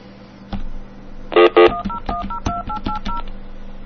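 Telephone keypad tones as a hotline number is dialed: a quick run of many short dual-tone beeps, with the first two loudest, over a low steady hum.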